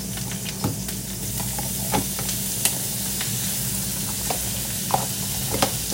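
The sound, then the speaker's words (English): An egg sizzles in a frying pan just before it is flipped to cook over medium. The frying hiss is steady and soft, with a few sharp pops and crackles scattered through it. “time to flip the egg over. Well, at least for me. I like the egg over medium.”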